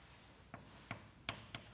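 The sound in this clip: A formula is written by hand with four faint, brief strokes of pen or chalk, evenly spaced against near silence.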